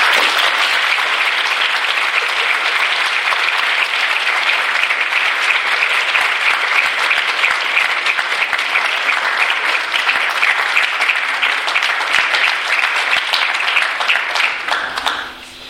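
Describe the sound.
An audience applauding to welcome Minister Peres: steady, dense clapping from many hands that holds at full strength for about fifteen seconds, then tapers off briefly at the end.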